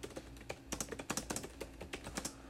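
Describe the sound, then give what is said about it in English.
Typing on an old computer's keyboard in Microsoft Word: many quiet, clicky keystrokes in uneven bursts, alone with no voices. “And I'll just type in something this. Oops, if it'll let me.”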